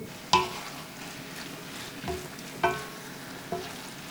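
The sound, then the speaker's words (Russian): Food frying in a pan until half-cooked, with a steady low sizzle and a few sharp metallic clinks from stirring. “Обжариваем до полуготовности.”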